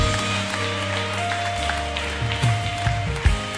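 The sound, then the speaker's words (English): A worship audience claps along, the beats rhythmic and fairly soft beneath sustained instrumental tones, with a louder clap or two near the end. “Come on, let's just clap our hands and celebrate that.”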